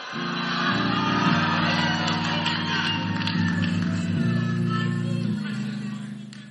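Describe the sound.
A church audience applauds and cheers to welcome a speaker for a testimony, a dense wash of clapping and whoops running throughout, with sustained low keyboard chords held and shifting beneath the crowd noise.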